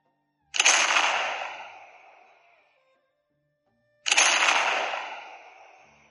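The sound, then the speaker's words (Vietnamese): Two loud cannon blasts, each a sharp crack that fades into a long rumbling tail, are separated by a few seconds of silence. “Hai cột khói đen vọt lên trời, tiếng nổ kinh thiên làm lỗ tai mọi người kêu ong ong.”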